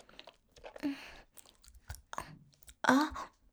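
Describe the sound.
Someone is chewing and crunching on a lollipop, producing a few irregular crisp crunches mixed with softer wet mouth sounds. The sounds are faint and broken by short pauses.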